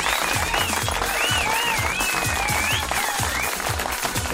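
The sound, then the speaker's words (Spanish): Studio applause on a morning radio show: dense, continuous clapping from a group that holds steady at a fairly even loudness for about four seconds, with no talking over it. “Aplauso para Fabiana de Saladillo.”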